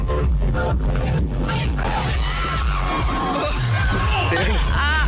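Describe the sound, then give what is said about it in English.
A concert crowd reacts loudly after a singer in a luminous green jumpsuit tries to crowd surf and it ends badly: dense, continuous yelling, whooping and shouting from many people, staying at full volume throughout. “It didn't end well, and you can tell by the reaction of the crowd.”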